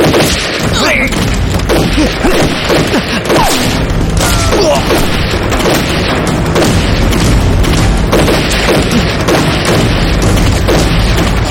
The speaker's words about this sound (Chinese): 子弹好像从那边打过来。